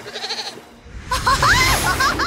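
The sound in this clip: Goat bleating, a farm goat in a cartoon mountain scene, heard as a wavering, nasal cry rising and falling after a brief quiet gap, preceded by lower rhythmic sounds.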